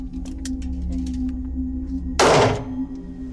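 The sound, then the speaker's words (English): One .38 caliber revolver shot is fired into a cotton twill target during a distance test. It lands as a single sudden, loud burst over a steady low hum. “Conway fires a .38 caliber revolver, similar to Karen's, in a series of tests meant to show the distance from the gun barrel to Philip's cheek.”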